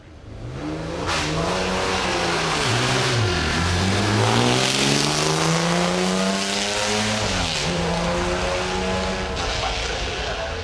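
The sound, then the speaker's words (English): A 1956 Jaguar D-Type long nose race car pulls away from the start of a hill climb. Its loud engine roar climbs in pitch, drops sharply twice, then climbs again, with no talk over it. “That was the sound of a 1956 Jaguar D-Type long nose pulling away from the start on the Friday of the Goodwood Festival of Speed Hill Climb in 2009.”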